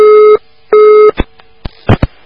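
A loud telephone busy tone after a call line drops: two steady, clear beeps, each under half a second, followed by several short clicks.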